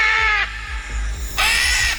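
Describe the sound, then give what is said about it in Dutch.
A green-winged macaw, a parrot, gives two harsh, raspy screeches, loud and piercing, separated by a short gap. “Het is een papegaai, een groenvleugelara. Kleurrijk beest”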